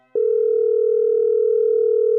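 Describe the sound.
Telephone dial tone heard when placing a call: one steady, loud, unbroken hum at a constant pitch lasting about two seconds, alone with no voices.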